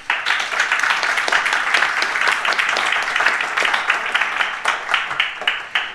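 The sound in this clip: Audience applause welcoming a guest, an opera company's chorus manager, at a talk. Loud, dense clapping holds steady, then thins toward the end into more separate, distinct claps.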